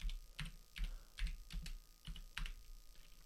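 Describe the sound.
Typing on a computer keyboard: many quick, faint clicking keystrokes in uneven bursts, with no voices.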